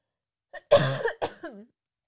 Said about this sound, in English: I'm sorry, but I'm kind of impressed with myself that that's only the first cough that I've done.